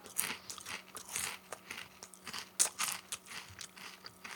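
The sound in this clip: Craft beer flavour potato chips being bitten and chewed, many irregular, crisp crunches and crackles, fairly faint and with no talking.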